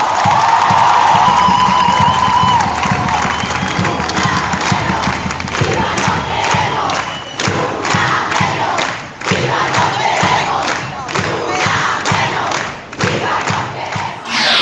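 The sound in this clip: A crowd chants and shouts at a women's protest march during an international women's strike, a loud, dense mass of voices running continuously, with recurring thuds underneath.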